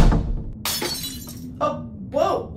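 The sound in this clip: A glass meth pipe dropped on the floor shatters in one sharp, bright burst, followed by short startled exclamations from a voice.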